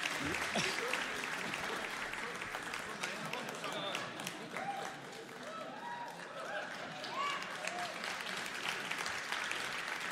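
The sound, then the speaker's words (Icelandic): Audience applause for a guest, with dense, steady clapping that continues evenly for the whole stretch and voices mixed faintly into the crowd noise. “Klöppum fyrir honum.”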